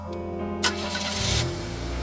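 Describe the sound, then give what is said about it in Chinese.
An old BMW 3 Series engine hums with a low, even, tonal drone. A brief rise in revs swells partway through before the engine settles back to a steady idle-like note. “黄修开着一辆老宝马三系，在拥堵的城市中通勤。”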